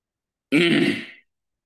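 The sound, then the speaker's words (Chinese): A single harsh throat-clearing hawk comes from a person bringing up white phlegm. It is one rough, loud burst lasting under a second, heard alone. “这些吐出来很多白痰的好，那这肺都解净了”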